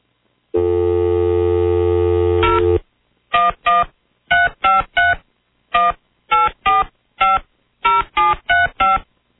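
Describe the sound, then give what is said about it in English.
Telephone dialing tones: a long steady tone gives way to a rapid series of short, clear touch-tone beeps in small clusters, loud and with no talk. “I'm going to turn all the microphones off now so I can just totally concentrate and dial.”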